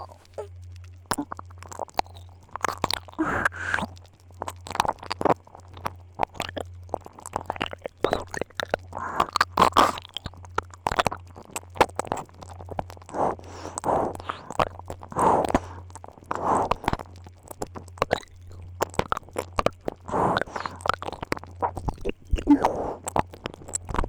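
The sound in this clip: Wet ASMR mouth sounds imitate eating an ear: many soft clicks, smacks and chewing squishes scattered irregularly throughout, over a steady low hum.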